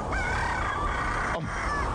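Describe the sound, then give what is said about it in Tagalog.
A rooster crows at dawn, a loud, strained harmonic call that holds and wavers for over a second before breaking off, followed by the start of a shorter second call. “Babatian ko na ang pagpanukturook sa mga manok.”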